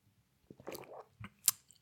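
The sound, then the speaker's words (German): A small sip of tea, very quiet and brief, made of soft wet mouth and swallowing noises, with a sharper little sound near the end. “ich brauche erst mal kurz einen kleinen Schluck Tee.”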